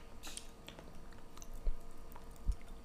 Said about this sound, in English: It's, like, stuck. I can't do it. Hold up. I was going to say unveiling. I'm undoing the wrapper.